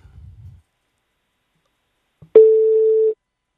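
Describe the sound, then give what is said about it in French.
A telephone line rings after a number is dialled: a click, then one steady, mid-pitched ringback tone held for under a second, alone in near-silence after a faint low murmur at the start. “On va composer le nom. Ouais, on compose. Ça sonne.”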